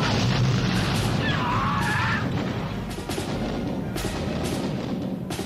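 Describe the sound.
A volley of gunfire from a line of troops in an open-field battle, with a dense, loud crackling roar at once that settles into a sustained rumble, broken later by a few sharp cracks.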